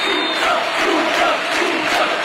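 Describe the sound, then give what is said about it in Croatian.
A stadium crowd in Seville roars as it rises to its feet for Luka Modrić coming on from the bench, a loud, dense and steady wall of cheering voices that holds without a break. “kad je Luka Modrić ušao u utakmicu sa klupe i cijeli stadion stao na noge. Ovo je snimka od sinoć sa stadiona.”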